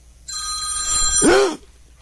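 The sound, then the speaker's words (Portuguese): A telephone rings from an accidentally placed call: a single loud, sustained electronic ring tone with a bright, steady pitch that breaks into a brief warble just before cutting off. “A mulher ligou, ligação perdida, sem querer.”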